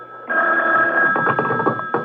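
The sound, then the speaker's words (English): A telephone rings with a single steady, buzzing bell tone that starts abruptly and holds for nearly two seconds, fairly loud and alone. “Then the phone rang.”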